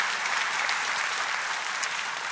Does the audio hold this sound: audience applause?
yes